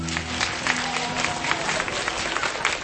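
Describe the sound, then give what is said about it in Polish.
Audience applause greeting a band at the start of a concert: a dense, steady patter of many hands clapping, with a low tonal hum beneath in the opening half. “Brawa dla nich!”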